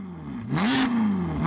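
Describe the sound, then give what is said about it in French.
A Ferrari V8 engine revs at full throttle. The loud, raw engine note climbs in pitch, dips, then climbs again, with no voices over it. “ce qu'on va faire, c'est que pour honorer sa mémoire, on va mettre un V8 de Ferrari à fond dans les enceintes. C'est pour le robot.”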